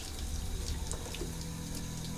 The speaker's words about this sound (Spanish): Alex deja caer el agua sobre su cuerpo sin percatarse.